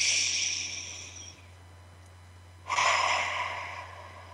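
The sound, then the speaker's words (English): A deep belly breath taken during a guided relaxation exercise: a long, airy rush of breath that fades out, a quiet pause, then a second, louder breathy swell that slowly trails away. “Take a big belly breath and close your eyes.”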